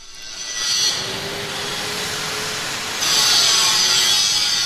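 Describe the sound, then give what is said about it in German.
Loud, continuous grinding in a large shipyard hall where a new passenger ship is being built, a steady harsh rasp that swells just before one second and grows louder again at about three seconds, with no voices. “Es wird gekämmert, geschweißt und vor allem geschliffen für das neue Schiff.”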